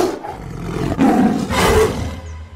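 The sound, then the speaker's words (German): A hungry tiger roars loudly in a dramatized story. The growling roar comes in a couple of powerful, rasping surges with no talk over it. “Dann fraß der hungrige Tiger die kleinen Nervensägen auf.”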